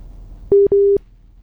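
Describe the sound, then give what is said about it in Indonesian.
A telephone busy signal sounds on a failed call: two steady, low-pitched electronic beeps, the first shorter than the second, loud and clean over quiet background hiss. “sepertinya kami terdapat kendala kembali ya untuk menghubungi Ustadz Makmun.”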